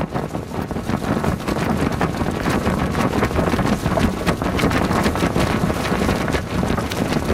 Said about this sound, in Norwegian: Det var rett og slett et seil på en båt som blaffra I vinden.